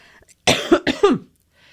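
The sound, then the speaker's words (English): A person coughs in a short, harsh burst of a few coughs, loud against near silence, with faint quiet sounds before and after. “That was a cough from me.”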